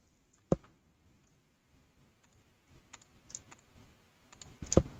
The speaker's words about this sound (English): Control and shift, left click, F. This we do 5 times for the outside.